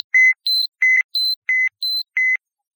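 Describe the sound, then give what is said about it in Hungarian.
A videophone rings with seven short electronic beeps that alternate between a lower and a higher pitch in a quick, even rhythm, then stop, leaving silence. “Videfon szól? Az bizony. Legalább felébreszti ezt a hétalvó társaságot.”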